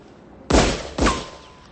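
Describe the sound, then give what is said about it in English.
Two sharp, loud gunshots from a handgun wrapped in a handkerchief, fired beside a slowly moving van. The blasts are about half a second apart, each with a short decaying tail, and no voices are heard. “Jimmy wraps a gun in a handkerchief to prevent fingerprints and fires it twice”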